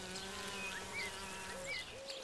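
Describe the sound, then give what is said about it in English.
Wild bees buzz faintly in a garden with a soft, steady hum, and a few light high chirps sound over it. “But the wild bees in the garden are easily overlooked.”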